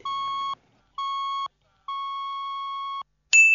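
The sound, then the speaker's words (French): Telephone ringing on a call line: three steady, mid-pitched electronic tones with silent gaps between them, the third held longest, then a higher-pitched tone starts just at the end. “Le téléphone ne sonne pas encore. Ça sonne.”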